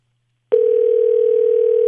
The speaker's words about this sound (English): It's ringing.